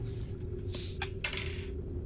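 A six-sided die rolls during a tabletop role-playing game, giving a few light, brief clattering clicks over a steady low hum.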